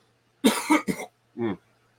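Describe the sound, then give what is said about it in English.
Harsh coughing to clear something stuck in the throat: three quick, rough bursts, a brief pause, then one more shorter cough, loud and with no other sound. “Excuse me, guys. I got something in my throat.”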